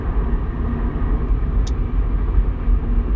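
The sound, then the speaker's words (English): Steady low rumble of a car driving, the engine and road noise holding at an even, fairly loud level throughout with no talk. “I am still driving to Le Tarje.”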